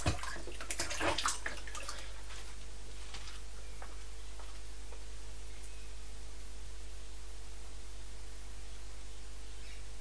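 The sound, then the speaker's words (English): Water splashes in a bathtub during a bath: a few brief splashes at the start, then a soft, steady hiss of water that carries on alone at a low level. “Splash. I think the water's probably getting cool, so I think we better get you out in a few moments.”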